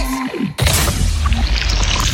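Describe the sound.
A sparkling soft drink being poured: a sharp burst gives way to a bright, steady fizzing hiss that continues to the end.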